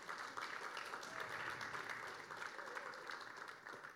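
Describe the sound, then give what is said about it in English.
A faint, even round of audience applause for the preacher's wife during a church talk. The clapping is continuous and steady from start to finish. “can we get another round of applause for my wife?”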